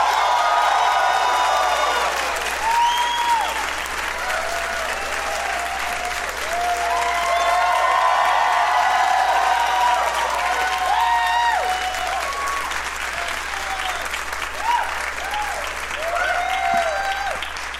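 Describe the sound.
Sustained audience applause greets guests arriving on a live comedy talk show, dense and steady for the full stretch, with scattered whoops rising above the clapping.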